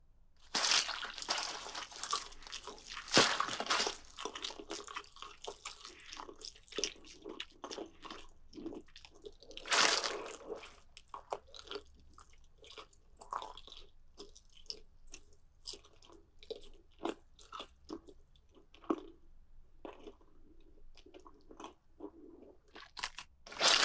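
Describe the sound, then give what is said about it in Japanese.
Someone chews meat off a bone with many irregular crunches and moist chewing sounds. A few louder bursts of crunching stand out near the start and midway, and no one speaks. “この骨の下をどうやって食べよう。”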